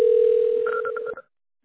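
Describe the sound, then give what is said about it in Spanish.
A telephone line's steady dial tone holds while a number is dialed. A few short, higher keypad beeps sound in quick succession over it before everything cuts off abruptly into silence. “Vale, entonces permanezca en línea conmigo, por favor. Yo voy a marcar.”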